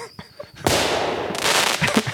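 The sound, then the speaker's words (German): A firecracker bursts with a sudden sharp bang, then a loud, crackling hiss that surges again about halfway through. A few faint, brief sounds come just before the blast. “Ich muss jetzt gleich mal hier einen Böller loslassen”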